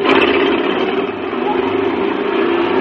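A car engine is cranked up and kept running before a race, giving a loud, rough, steady drone that holds without a break throughout.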